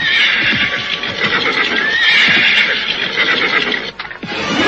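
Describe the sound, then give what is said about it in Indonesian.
A horse neighs as its rider reins it to a stop, a loud, shrill, wavering whinny that stays strong across several seconds. “Aku juga harus menghentikan langkah kudaku. Hop!”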